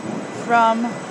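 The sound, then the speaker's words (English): Train station ambience at London Bridge, London: a steady low rumble and hum fill the space, with a brief voice rising over it near the middle. “We are at London Bridge.”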